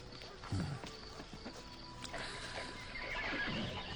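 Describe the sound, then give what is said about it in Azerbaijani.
A horse neighs faintly against a low, noisy background. “Gözəl at.”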